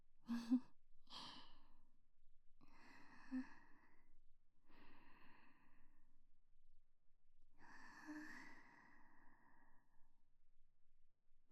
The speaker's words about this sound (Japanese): そのまま深呼吸続けて。うん、私もちょっとしちゃおっかな。